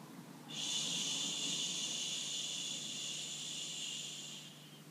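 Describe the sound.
A long, steady "shh" exhale from a breathing exercise: one continuous bright hiss holding at an even level for about four seconds before fading out.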